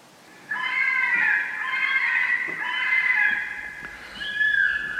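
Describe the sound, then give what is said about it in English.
Fisher cats scream in the woods behind a house at night: a shrill, wavering, strained cry that starts abruptly and holds. It dips briefly, then rises into a second screech. “The sound that you're hearing, the screaming, this is the sound of the fisher cats in the woods behind my house.”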